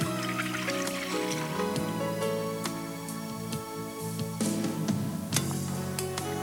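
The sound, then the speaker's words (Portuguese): Milk for boiling is poured into a pan, making a continuous liquid trickle with small drips and splashes. The sound stays fairly even throughout. “Então, peguei o leite, vou colocar para ferver.”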